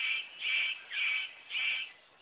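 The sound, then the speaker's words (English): Harsh rasping calls of a male superb bird of paradise calling to attract a female, four evenly spaced calls in a row, each fairly loud and grating, with no voices. “The superb bird of paradise calls to attract a female.”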